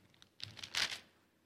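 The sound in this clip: The sticky pages of a Bible being turned make a few faint, brief papery rustles that cluster together and then fade.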